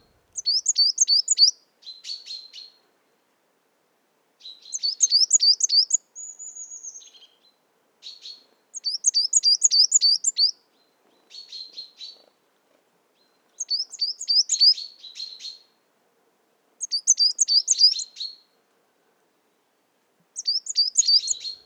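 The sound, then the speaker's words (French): At dawn, waking chaffinches and a singing coal tit give many bright, high-pitched song phrases. The phrases repeat in regular bursts separated by short pauses, with no other sound between them. “Les premiers cris sont ceux de pinsons des arbres qui s'éveillent. Chant de la mésange noire,”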